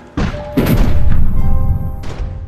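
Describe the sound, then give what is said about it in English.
A cannon broadside barrage from a pirate ship in a tabletop role-playing game scene: two heavy booms in quick succession, then a loud, sustained rumbling roar that cuts off after about two seconds. “Hold fast, wretched sailor. We brace for the broadside barrage.”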